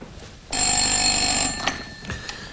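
A telephone bell rings for an incoming long-distance call: one loud, bright, sustained ring of about a second, heard alone, followed by a few faint clicks.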